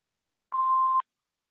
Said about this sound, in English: Hello, we are not available now. Do what? Please leave your name and phone number after the beep.